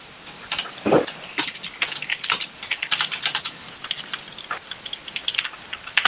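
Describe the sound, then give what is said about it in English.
Typing on a computer keyboard: many quick, uneven clicks and taps in a steady patter, with no talking. “it's just go ahead and type HSDLD again”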